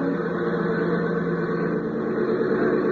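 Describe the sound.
Light aircraft engine running rough, with a suspected sticking exhaust valve or carburation trouble, gives a continuous droning hum with strong low harmonics, steady and unbroken throughout.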